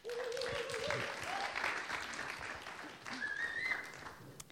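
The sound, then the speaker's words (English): Audience applause for a person welcomed up during a Christmas church service: sustained, even clapping from many hands that continues steadily and tapers only slightly at the end. “Let's give Polly a big hand.”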